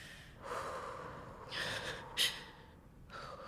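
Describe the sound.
A shaken, frightened person takes a deep breath, a few soft, shaky airy inhales and exhales, faint and breathy, with no talking.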